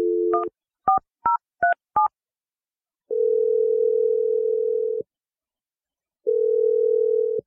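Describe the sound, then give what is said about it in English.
Touch-tone keypad beeps as a telephone number is dialed, a quick run of short dual-pitched tones followed by two long, steady ringing tones with a pause between them. “All right, here we go. I'm going to dial the number.”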